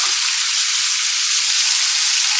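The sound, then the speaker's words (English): Ground meat frying in a pan on a stove burner set to high: a steady, loud, unbroken sizzling hiss with no pauses and no voices. “I've got the pan sitting on the stove. It's on the burner. I think I've got it set to high, though. I think we're going to turn down the heat after I use the spoon to break up the meat.”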